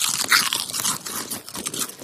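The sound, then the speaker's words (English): Several people crunching chips during a taste test: many crisp, crackling bites and chews overlapping in a continuous, fairly quiet stream, with no talk. “Okay, now I've passed out the chips and we're going to sample the one in our right hand first.”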